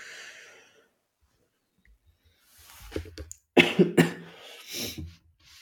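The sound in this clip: Someone coughs a few times, harsh and raspy, after choking on something mid-conversation. The coughs break out abruptly after a stretch of near silence, with short gasping breaths between the loud bursts.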